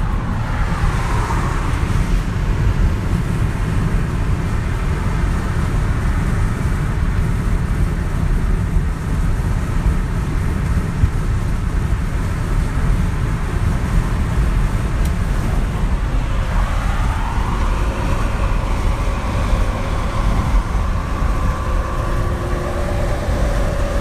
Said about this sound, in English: This is 1 minute of me driving down the freeway.